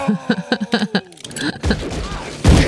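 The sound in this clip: Guns fired into the air in an Old West film scene: two loud, sharp gunshot bursts ring out over a noisy wash, coming right after a few seconds of voices.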